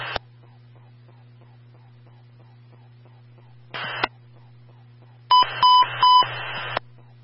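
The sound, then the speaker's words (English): Emergency transmission tone test on a fire dispatch radio: short bursts of radio static and electronic beeping tones over a steady low hum and a regular soft ticking, ending with a longer burst of several high tones. “Company standby for the emergency transmission tone test.”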